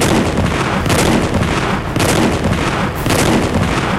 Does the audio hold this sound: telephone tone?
no